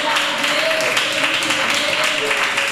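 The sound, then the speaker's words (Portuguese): Congregation clapping during a church service, a continuous, fairly loud spread of hand claps with a sustained voice sounding beneath it. “Palmas para Jesus e amém. Palmas para Jesus.”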